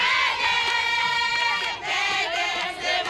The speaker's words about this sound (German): Wenn Afrikaner demonstrieren, dann rufen sie keine Parolen, sondern singen im Chor.